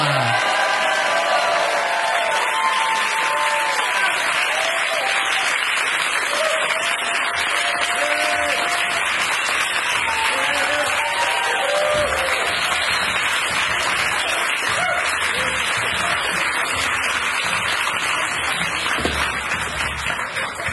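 Studio audience applause welcoming guests onto a show: sustained, loud clapping with cheers and whoops that carries on evenly for about twenty seconds.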